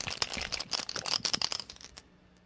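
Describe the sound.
Dice rolled during a tabletop role-playing game's character creation: many quick, light clicks and rattles clatter for about two seconds, then stop.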